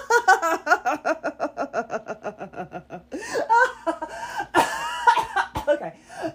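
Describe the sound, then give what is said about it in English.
Coughing and choking on a swig of soda: a run of rhythmic, voiced, laugh-like spasms is followed by ragged, irregular coughs and gasps from one person. “Okay, I'm choking.”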